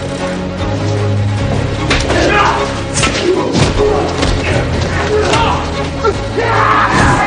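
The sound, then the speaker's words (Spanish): Punches land in a fistfight, heavy thuds scattered through a dense, noisy scuffle with yelling voices and a crowd-like commotion throughout. “Watson y Sherlock luchan a puñetazos como hombres.”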